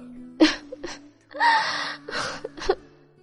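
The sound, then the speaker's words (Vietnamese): A voice performs choked crying, with a few gasping sobs and quavering whimpers in short bursts and one longer strained wail, emotional and breathy, with no other sound. “Ta nghẹn ngào khóc 2 tiếng, bắt đầu kể lể lại chuyện cũ.”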